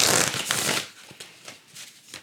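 A deck of tarot cards being shuffled: a dense papery riffle at the start, followed by a few softer flicks and taps as the cards settle, with no talking.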